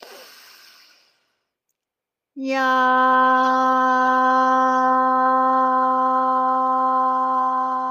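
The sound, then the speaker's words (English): A meditation breath: a soft, breathy inhale, then a second of silence, then a loud, steady sung tone on the out-breath that holds evenly for over five seconds. “So we'll breathe in, and on the out breath, we'll say yam. Breathe in.”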